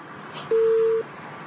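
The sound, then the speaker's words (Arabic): A telephone busy tone sounds after a call is cut off: a single steady, mid-pitched electronic beep lasting about half a second over a faint background hiss. “قطع اتصال.”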